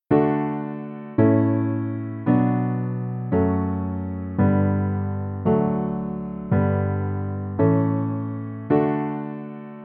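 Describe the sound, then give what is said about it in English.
Basic chord progression of a famous canon, played as a steady series of struck chords at an even, unhurried pace. Each chord rings and fades before the next one starts, with no voices. “If we break this progression down to the most basic version, Pachelbel's canon sounds like this.”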